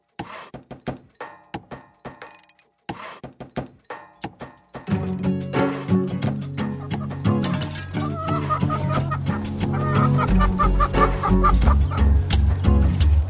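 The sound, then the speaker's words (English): Chickens cluck at an urban farm under a highway overpass on 18th Street in Wheeling. Sparse clucks and knocks open the scene, then a denser, steady mix of clucking builds over a low continuous rumble. “Here we are on what looks like a farm, what sounds like a farm, but we're in the city, under a highway overpass. It's called Farm 18 because it's on 18th Street in Wheeling.”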